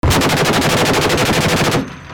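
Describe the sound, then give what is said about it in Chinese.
Machine gun fire from a Ukrainian border guard maritime unit of Odesa during a live-fire drill off the Black Sea coast. A loud, rapid, continuous burst of many rounds lasts almost two seconds, then stops abruptly. “隶属乌克兰边防局的敖德萨第一海上警卫队官兵在黑海近岸的一处海域举行实弹射击，确保乌克兰在黑海周边的海上安全。”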